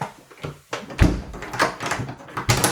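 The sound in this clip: A door being closed and locked, used as a gag sound effect: a few sharp knocks and clicks, the loudest thump near the middle, followed by shorter latch-like clacks.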